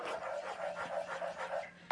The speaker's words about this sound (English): I've added in my butter and I'm giving it a good stir to melt all that butter.